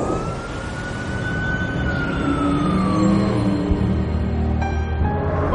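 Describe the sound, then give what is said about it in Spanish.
Big-city traffic with a wailing emergency siren whose tone rises slightly and then slowly falls, over a steady dense rumble of vehicles; another higher tone enters near the end. “Otro día, se muestra el tráfico de una gran ciudad.”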